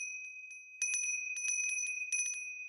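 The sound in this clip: A small hand bell rings on its own: bright, sustained high tones with many quick jingling strikes clustered through the middle and end.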